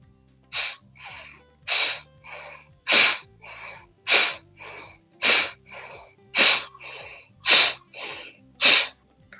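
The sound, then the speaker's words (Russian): Rapid, sharp breaths from a breathing exercise, with quick inhales and exhales alternating in a steady, even rhythm. Many forceful, hissing bursts follow one another alone, with no talking. “мы делаем вдохи и выдохи быстро”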